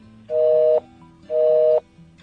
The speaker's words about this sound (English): I think they took their phones off the hook, because I don't understand how they could be busy.